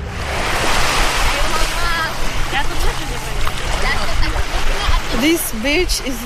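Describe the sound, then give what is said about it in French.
Mediterranean sea waves wash onto Marbella beach in Barcelona in a steady, broad rushing surf that runs throughout, with a person speaking over it. “Cette plage s'appelle Marbella, la belle mer. C'est la même mer qu'en Israël, mais depuis la rive opposée. Pourtant, on a l'impression que ce sont des eaux différentes.”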